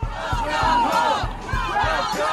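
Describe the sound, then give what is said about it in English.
Supporters at the Tennessee state capitol in Nashville cheer to welcome back a state representative. The loud crowd chants in unison, marked by regular heavy beats. “You just heard supporters of Nashville Representative Justin Jones welcoming him back to the state capitol yesterday”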